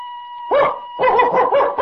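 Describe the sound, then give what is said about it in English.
A person imitating a dog barking, with a human voice producing a lone bark-like yelp followed by a quick run of several more in a choppy rhythm. “If I told you to bark like a dog,”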